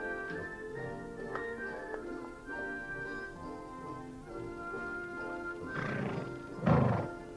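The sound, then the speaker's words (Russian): A horse neighs, with two brief, breathy whinnies near the end over a steady bed of quiet music; the second whinny is louder. “Казак замахивается на провинившуюся лошадь.”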